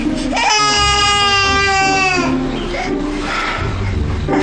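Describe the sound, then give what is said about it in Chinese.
An infant cries loudly, starting with a long, wavering, high-pitched wail and continuing into further sobbing cries without pause. “不哭了，不哭了，不哭了，躺下喽。”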